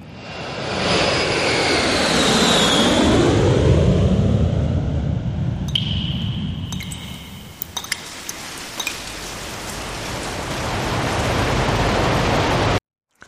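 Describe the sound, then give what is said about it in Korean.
A jet airliner departs, its engine roar swelling and holding strongly for several seconds with a descending whine. The roar gradually thins, then cuts off abruptly. “우리 항공기 출발합니다.”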